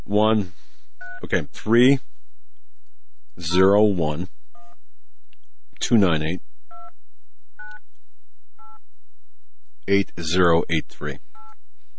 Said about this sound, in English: We're gonna call the number that appeared on the caller ID now.